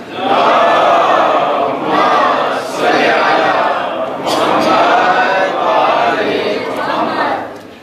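A crowd recites salawat in unison to congratulate six participants at a prize announcement, with loud, sustained group chanting rising and falling in several long phrases.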